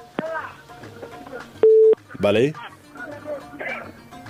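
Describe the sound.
A telephone call being connected on a radio call-in line, heard as one short, steady low beep. People talk before and after it.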